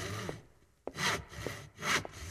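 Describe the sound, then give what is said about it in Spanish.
Handsaw cutting through a piece of lumber at a workbench, several rasping strokes of uneven strength, two of them louder and longer, with no voices. “El hombre tomó un madero y lo cortó con el serrucho mordaz.”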